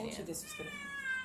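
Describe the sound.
Siamese cat meowing: a drawn-out, tonal meow with a slightly wavering pitch, heard under nearby talk.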